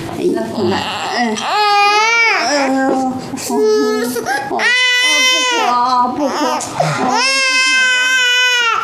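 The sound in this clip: An infant crying loudly while being held and soothed, in repeated drawn-out, wavering wails broken by shorter sobs, with about three long cries standing out.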